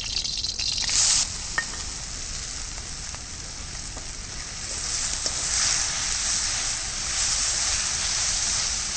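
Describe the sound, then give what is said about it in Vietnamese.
Stir-frying carrot and jicama in a pan gives a steady, continuous sizzle with bright hiss throughout, swelling slightly in the second half, plus a few faint clicks near the start. “Bây giờ mình xào cà rốt, củ sắn.”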